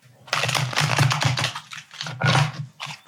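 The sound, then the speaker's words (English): Shuffling a Tarot Vintage card deck produces dense bursts of papery rustling and flicking. They come in a few busy runs with short gaps between them, fairly loud and with no talk. “I guess let's shuffle. I am using Tarot Vintage, per usual.”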